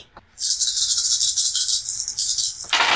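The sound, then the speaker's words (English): Dice rattle loudly and continuously during a tabletop role-playing game, a bright clattering that runs for a few seconds after a brief pause at the start. “You hear that? That's the sound of dice, listener.”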